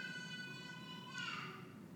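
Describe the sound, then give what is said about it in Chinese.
A baby makes drawn-out, tonal vocal sounds in the room, a faint, steady, harmonic hum that shifts briefly midway. “等一下，宝宝那个声音应该录进去。”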